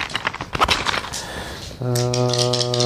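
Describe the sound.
A pencil being sharpened very finely, with the wood shaved down: irregular scraping, crackling bursts for a couple of seconds, then a steady buzzing tone that holds to the end.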